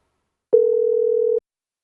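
A telephone dial tone on a call to a truck stop fuel desk in Earl, Arkansas: a single steady electronic tone of just under a second, clean and alone, with silence before and after.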